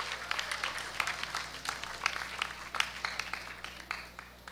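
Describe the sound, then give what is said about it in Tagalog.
Scattered applause from an audience at a school campus ceremony honouring guards and cleaning staff: many distinct, crisp hand claps in an uneven rhythm, fairly faint, tapering off near the end. “Pasalamatan din po natin yung mga guard po natin, yung mga nag-aayos at nagpapanatili sa kalinisan ng buong TAPS campus. Palakpakan po natin sila.”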